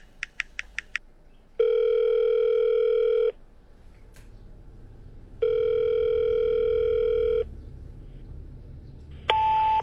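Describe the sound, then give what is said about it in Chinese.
A telephone call is dialed: five quick keypad beeps are followed by two long, steady ringback tones separated by a quiet gap. A brief tone returns at the very end. “挣扎了一番，他拨通了曹海的电话。”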